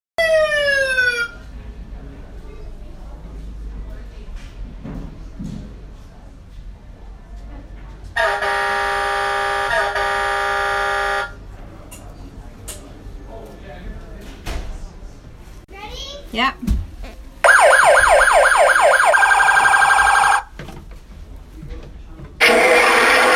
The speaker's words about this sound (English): There is a giant fire truck, engine number